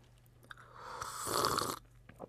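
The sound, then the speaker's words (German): Someone bites into a milk chocolate Santa Claus figure, a single short, crunchy snapping burst, fairly faint, with quiet before and after. “Jetzt geht es meinem Schokoladen-Nikolaus an den Kragen. Mmh, Vollmilch.”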